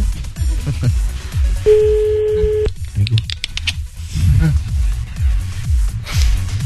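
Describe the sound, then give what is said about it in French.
A telephone call ringing out, a single steady ring tone lasting about a second, heard over a busy background with voices. “Appelle Sébastien, c'est parti.”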